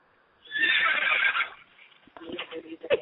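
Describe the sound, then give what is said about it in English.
A horse neighs in one loud, high, shrill whinny that lasts about a second. Quieter voices talk afterward. “Is that a horse?”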